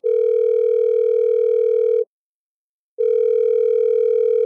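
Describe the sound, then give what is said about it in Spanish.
Telephone ringing with an incoming call: two long, steady electronic rings with a slight warble, separated by a pause of about a second. “Parece que está entrando una llamada.”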